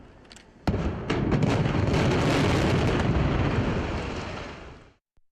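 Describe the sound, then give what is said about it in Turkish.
Dynamite charges blast in the controlled demolition of a 48-year-old building: a sharp, loud detonation and a few further cracks merge into a long, heavy roaring rumble that slowly fades and stops abruptly. “Ardıl şekilde ateşlenen dinamitler peş peşe patladı. 48 yıllık bina kontrollü şekilde saniyeler içinde yerle bir oldu.”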